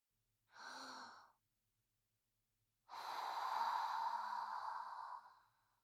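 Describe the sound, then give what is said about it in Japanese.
A deep breath taken to calm nervousness: a short, audible breathy inhale, a silent pause, then a long, steady exhale like a sigh. The breath is soft and unaccompanied, with no talk. “深呼吸しよう。”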